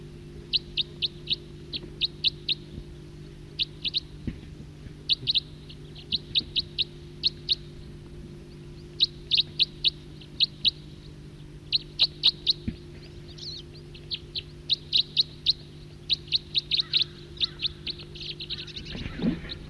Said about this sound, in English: loud far off calling. Stop. Start again, same bird.